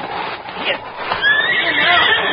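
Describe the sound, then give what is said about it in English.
A horse whinnies in a high, wavering neigh that swells over the second half after softer rustling at the start. The horse carries an injured rider slumped in the saddle. “I'll take care of the horse.”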